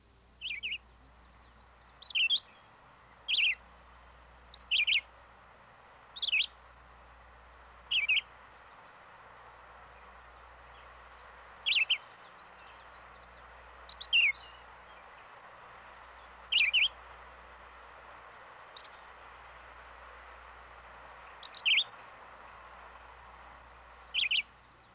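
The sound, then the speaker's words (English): Red-eyed vireo song: a long series of short, high chirping phrases, each separated by a pause of a second or more, repeated steadily over a constant background hiss and a faint low hum. “The red-eyed vireo's incessant song is one of these, to be heard throughout the summer.”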